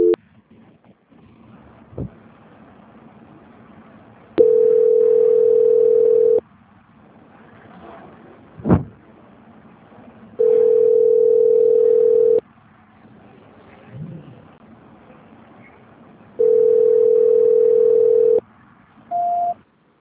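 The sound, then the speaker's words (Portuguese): Telephone tones while a call is being transferred: three long, steady mid-pitched beeps of about two seconds each, separated by quieter gaps with a few faint clicks, ending on a short higher tone. “vou tentar passar a ligação, tá? Só um minutinho. Tá bom. Transferência.”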